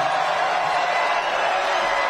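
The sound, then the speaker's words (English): A crowd cheering at a political rally in New Hampshire: a continuous, dense roar of many voices that stays level and unbroken throughout. “Crowd loving it. Feeling it. This is the mood of America.”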